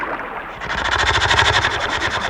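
A boat motor being started for a trip to shore: a short stretch of muffled rumble, then the engine catches and settles into a steady, rapid pulsing chug with a low throb that continues to the end.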